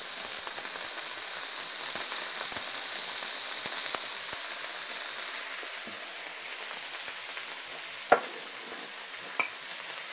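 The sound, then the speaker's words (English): Vegan sausage being stirred into sautéed onions and peppers as they fry in a pan: a steady bright sizzling hiss with soft scraping, and a sharp knock and a smaller clink near the end. “And mix these together well. And then stirring together the vegan sausage with the onions and peppers,”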